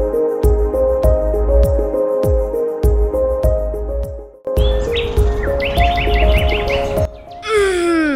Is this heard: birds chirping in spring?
yes